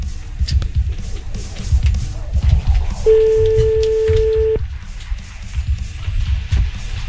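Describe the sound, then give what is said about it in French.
Telephone calling tone while phoning someone back, one steady mid-pitched beep lasting about a second and a half over low, murmuring background noise. “je crois qu'il est temps de le rappeler.”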